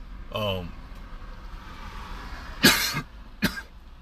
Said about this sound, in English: They must be knowing I'm talking about them, because I generally don't cough a whole lot, but all of a sudden I can't. Coughing and coughing.